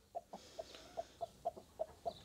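Brooding hens cluck softly as they are set into nesting boxes that hold eggs, giving a faint series of short, evenly spaced clucks with brief pauses between them.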